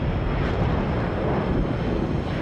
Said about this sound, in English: A white plane with red stripes along the windows turns.